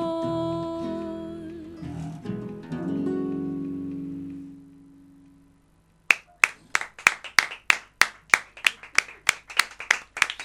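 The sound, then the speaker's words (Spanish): Applause from people behind a studio's glass: after a sustained voice fades to near silence, many crisp hand claps follow in an even, steady rhythm until the end. “Aplauden, aplauden del otro lado de la pecera.”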